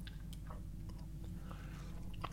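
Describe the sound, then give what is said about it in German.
Mussels are chewed after being eaten by hand, without a fork: quiet, wet chewing with a few soft clicks and smacks over a low background hum, and no talking. “man isst auch Muscheln nicht mit einer Gabel, man isst sie so”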